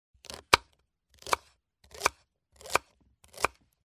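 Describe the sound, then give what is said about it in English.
A small robot hand cutting meat with a knife, giving five evenly spaced sharp chops. Each chop is a short scraping lead-in followed by a crisp strike, with silence between them. “My robot can cook pizza. Look, his small hand's cutting meat.”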